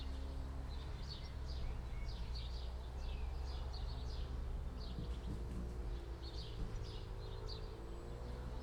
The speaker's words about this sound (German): Und Sie hören jetzt ein paar Vögel im Hintergrund.